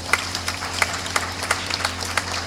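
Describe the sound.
Scattered hand claps from a church audience during a priest's address: sparse, irregular sharp snaps rather than a full ovation, set over a low steady hum.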